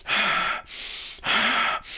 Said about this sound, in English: basically, you breathe in and out deeply for 25 breaths. I won't do that all right now, but it's,